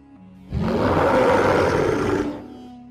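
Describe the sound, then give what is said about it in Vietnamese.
A giant beast roars under the desert night sky. One long, loud, rough roar bursts in suddenly, holds for about two seconds and then fades away. “Tiếng giả thú gầm vang, càng hiệu thê lương, thân hình khổng lồ xuất hiện dưới trời đêm sa mạc.”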